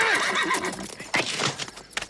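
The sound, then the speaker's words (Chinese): A horse whinnies loudly with a wavering, quavering pitch, followed by its hooves striking the ground in a quick, uneven run of clops. “听马蹄声。”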